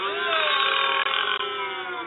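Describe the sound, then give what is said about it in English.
A long, drawn-out burp: one continuous, fairly loud, rasping belch with a low buzzy tone and a couple of brief catches partway through. “I like the combination of burp and boo.”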